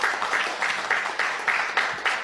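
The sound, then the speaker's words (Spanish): Applause from an audience at a tribute event marking a hundred years of radio in Paraguay: a steady, fairly faint wash of clapping with soft rhythmic swells. “Con este gran aplauso le tributamos la”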